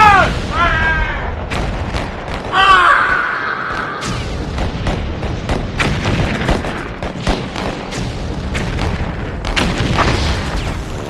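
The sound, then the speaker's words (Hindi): Gunfire and booming blasts fill a battle against Chinese troops: many sharp, rapid cracks and heavier thuds, loud and irregular, packed close together throughout. “तो संभालो अपनी बंदूक, एक बार फिर मौत बनकर टूट पड़ो इन चीनियों पर। जय मां काली, आया गौर काली, फायर!”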